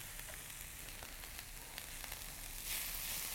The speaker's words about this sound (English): chop them up finely and put them in a pan. All right, so I'm going to put them in here.